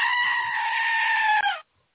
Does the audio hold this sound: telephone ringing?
no

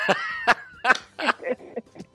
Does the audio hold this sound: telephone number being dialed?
no

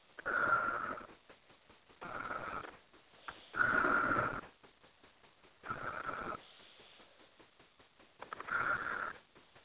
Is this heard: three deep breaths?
yes

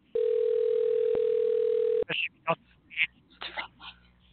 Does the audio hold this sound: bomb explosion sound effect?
no

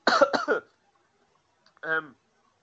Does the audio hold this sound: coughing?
yes

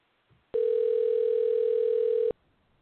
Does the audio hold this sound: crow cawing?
no

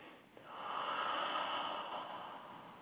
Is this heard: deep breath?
yes

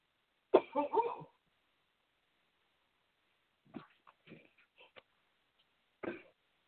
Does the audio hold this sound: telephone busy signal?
no

